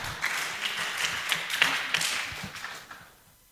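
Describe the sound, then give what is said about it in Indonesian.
An audience claps for three teams in a quiz competition. Scattered, fairly light claps keep a steady level, then thin out and fade away in the final half second. “Sekali lagi mari kita berikan tepuk tangan yang meriah untuk ketiga tim kita.”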